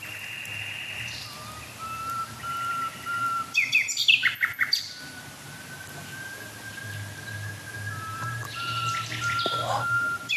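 Two birds call over each other with long, wailing, sobbing tones that overlap. The calls are faint, with a brief burst of louder, busier calling in the middle.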